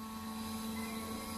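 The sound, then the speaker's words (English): A drone launching over Maumee Bay gives off a steady, buzzing rotor whine. It is a faint, even hum with a strong tonal core and no change in pitch across the brief stretch. “This is the sound of a drone's first launch on Maumee Bay last year.”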